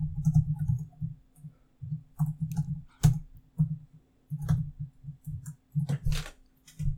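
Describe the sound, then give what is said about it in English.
Typing on a computer keyboard: faint, irregular clicks and taps come in uneven bursts over a steady low hum, with a few sharper key strikes standing out. “You'll see why I'm taking so long to type it out.”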